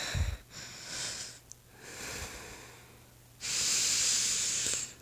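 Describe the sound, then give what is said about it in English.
Deep, nervous breathing in three slow, drawn-out breaths, each a soft rush of air, with the last the loudest and longest; there is no speech. “Deep breaths.”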